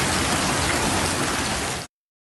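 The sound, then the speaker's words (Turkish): Heavy evening rain turning into hail over a district's farmland: a dense, steady hiss that stays loud and even for about two seconds, then cuts off abruptly into silence. “Akşam saatlerinde başlayan yağmur sonrasında dolu yağışına döndü.”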